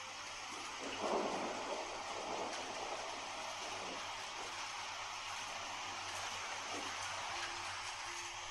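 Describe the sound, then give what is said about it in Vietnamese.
Heavy rain pours down during a thunderstorm, a dense, steady hiss of falling water with a low rumble early on, with no voices. “Tiếp theo một trận mưa lớn sầm sập đổ xuống.”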